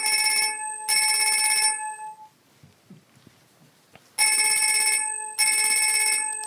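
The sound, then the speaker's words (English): Synthesized bell tones are rebuilt from their vibrational modes, sounding as bright, metallic ringing bursts with sustained partials. They come in two pairs, separated by a quieter, rustling gap. “So we'll bring back in some of the vibrational modes. And then bring back the other bell.”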